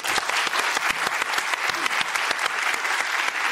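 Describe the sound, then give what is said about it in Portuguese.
Studio audience applauding a guest on a science discussion show, a brisk, even wash of many hands clapping at constant loudness without pause. “Para acompanhar essa conversa com o Nick Bostrom, aplaudam, por favor, o nosso colunista de ciência aqui presente, o neurocientista Stephen Hain.”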